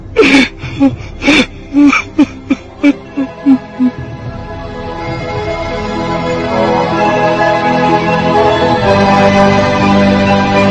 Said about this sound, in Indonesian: menangis tersedu-sedu meratapi kegagalannya menjalankan tugas